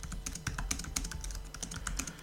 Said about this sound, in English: Here's the new Magic Keyboard 2. Okay, so if I start typing on the keyboard,